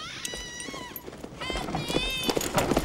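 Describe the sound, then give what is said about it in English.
Several high, wavering whinnies from two horses pulling a buckboard that its driver struggles to control. The cries sit over a low, rumbling clatter, with voices mixed in. “A woman in a two-horse-drawn buckboard struggles to control the animals.”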